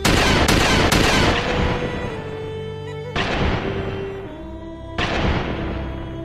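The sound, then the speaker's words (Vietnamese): Gunfire at a shooting range: a rapid burst of loud cracks up front, then two more separate shots, each trailing off in a long ringing decay. “Tiếng súng vang lên liên tục trong sân tập bắn.”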